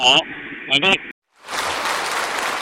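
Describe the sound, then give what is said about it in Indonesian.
Applause from engineers and scientists at the Beijing aerospace flight control center: a brief voice at the start, a short pause, then dense, steady clapping that holds at an even level to the end. “Di pusat kontrol penerbangan Dirgantara Beijing, para insinyur dan ilmuwan bertepuk tangan meriah saat telemetri mengkonfirmasi bahwa pesawat luar angkasa telah memasuki orbit yang direncanakan.”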